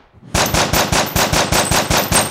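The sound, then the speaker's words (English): Machine-gun fire rattles off in a rapid, even rhythm of about ten loud, sharp shots, each with a heavy low thump, heard alone without talk. “Guns. Oh. Sounds so real.”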